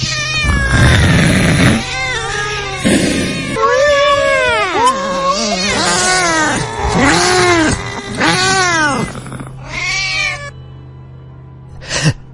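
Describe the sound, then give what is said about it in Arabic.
A black cat yowls and meows inside a car, giving many long, drawn-out wavering cries that arch up and down in pitch. The cries are loud and nearly continuous over a low steady hum. “قط اسود بينط من على الكرسي وخرج جري.”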